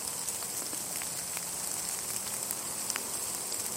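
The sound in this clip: Rain falling outdoors as a small rain cloud passes through, a steady soft hiss scattered with faint pattering drops, fairly quiet and without any talk.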